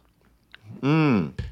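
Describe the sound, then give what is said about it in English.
Someone sips hot English breakfast tea: faint mouth clicks lead into a loud, slurping sip with a wavering, tonal whine lasting about half a second, then a short breathy release. “I'm going to take a sip of tea now.”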